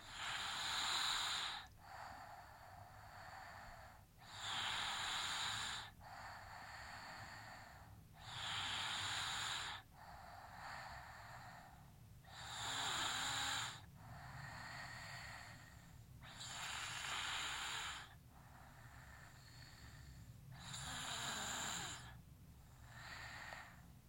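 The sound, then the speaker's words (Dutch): A five-year-old girl breathes slowly and evenly in her sleep, with about six soft, airy breath cycles at a regular rhythm. The breathing is faint and no one talks. “Dan val ik ook heel goed in slaap. Omdat ik haar hoor ademen. Dat is nog steeds, want ze is nu 5. En gelukkig klinkt het inmiddels wel iets anders. Iets minder kwetsbaar. Laten we even luisteren.”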